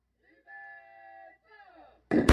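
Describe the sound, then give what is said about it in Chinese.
An artillery gun fires a live round toward the sea during a Taiwanese military live-fire drill: a drawn-out tonal call comes first, then one sudden, loud, sharp blast at the very end. “刚刚射击的是 M1-9 各连第一炮，目标区在前方海域。继续射击的是各连第二炮，第二炮发射，”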